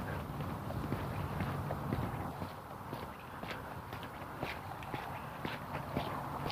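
Footsteps of a person on a morning walk: a steady, rhythmic patter of steps that stays fairly even in loudness over a constant noisy background, with no talk.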